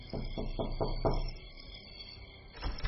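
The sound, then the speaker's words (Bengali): Knocking on a hotel room door in the middle of the night: a quick run of a few sharp raps, then quiet, over a steady tonal background. “এমন সময় দরজায় কেউ knock করল।”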